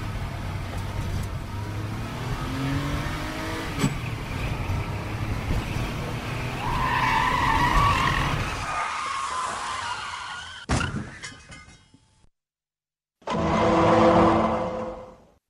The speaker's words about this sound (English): These illegal drag races are getting out of hand